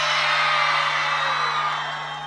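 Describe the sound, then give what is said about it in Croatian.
A festival crowd at an evening summer music festival screams and cheers in one long, dense roar. It is loud and steady at first, then slowly fades toward the end. “Wow, da čujemo jedan veliki vrisak za Novi Zelica Summerfest!”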